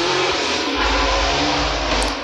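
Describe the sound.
A loud car or motorcycle passes, giving a steady broad roar with a deeper engine rumble that swells after the opening second and holds to the end.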